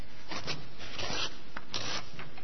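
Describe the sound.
A sheet of A4 paper is folded in half crosswise, giving several short bursts of dry, scratchy rustling and rubbing.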